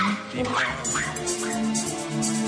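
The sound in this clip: A dog barks and yips in several short, excited bursts with a few whimpering notes, while a person talks over it.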